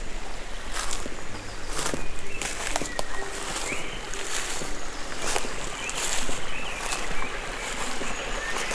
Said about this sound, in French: Les oiseaux font un bruit de cathédrale.